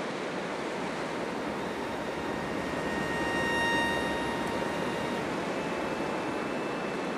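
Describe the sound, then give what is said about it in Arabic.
Calm sea waves gently reaching the shore make a soft, steady wash that holds an even level throughout, with no distinct breakers and no voices. “الهدوء الصامت، حتى أمواج البحر مش قاعدة ترتفع،”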